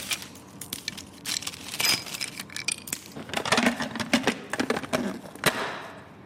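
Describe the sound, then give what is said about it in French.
Hardened caramel being cracked and crushed into a fine powder. It gives many quiet, sharp crunches and brittle clinks in an irregular, scattered rhythm with no talking. “Donc là, je casse mon caramel.”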